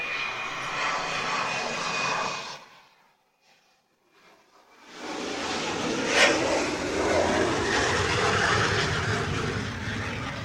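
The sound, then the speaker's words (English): A T-38 jet aircraft flying past with a loud, broad engine roar that fades to near silence for a moment, then swells back into a strong, sustained rushing roar. “But for those wondering, that was a T-38”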